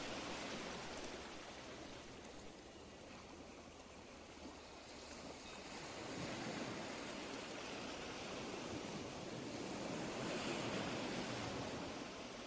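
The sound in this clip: Sea waves wash onto a beach in a soft, continuous rushing surf that swells louder through the second half. No voices are heard.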